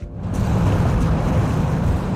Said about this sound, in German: Nur das Rauschen des Wassers und der Fahrtwind.